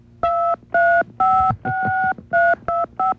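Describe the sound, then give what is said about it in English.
Telephone keypad dialing tones: seven steady two-note beeps of uneven length separated by short gaps, clear and fairly loud with nothing else heard. “you don't have to dial. You're already here.”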